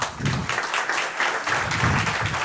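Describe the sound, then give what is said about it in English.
An audience applauds to welcome a guest onto a panel at a Gaelic football evening, with a moderate, rolling wash of clapping and low rumbles of crowd noise running throughout. “First up, a round of applause for the GAA correspondent with the Irish Sun, Mr. Keane Murphy.”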